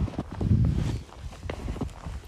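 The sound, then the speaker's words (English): Snowshoes walk on freshly fallen snow in the snowy foothills of the Sierra Nevada in Northern California, making a series of soft, muffled crunching steps at an uneven pace. “This, my friends, is the sound of snowshoes walking along freshly fallen snow.”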